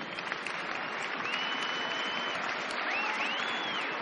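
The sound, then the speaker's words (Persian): Audience applause at an awards presentation, a dense and steady patter of many hands clapping without pause from start to finish. “تشویق کنید ایشونو.”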